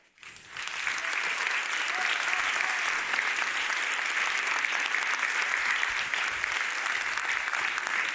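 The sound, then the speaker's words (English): An audience breaks into applause after a talk, the clapping swelling within the first second and then holding as a dense, steady, enthusiastic roar for about eight seconds. “I don't know if you can hear the audience, but we are very enthusiastic in this room.”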